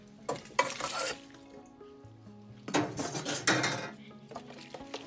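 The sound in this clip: Stirring macaroni and cheese in a pot on the stove: a spoon scrapes and clinks against the pot in two busy bursts, separated by a quieter stretch with a steady low hum underneath.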